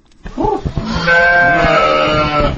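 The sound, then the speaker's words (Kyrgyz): Sheep and goats bleat in a herder's livestock yard in a village of Bazar-Korgon district: a short wavering bleat, then a loud, long, drawn-out call. “Биз азыр Базар Коргон районундагы Коткор кыштоосундагы мал, кой, жылкы багып жүргөн Улан Турунбаев аттуу жигиттин короосуна келдик.”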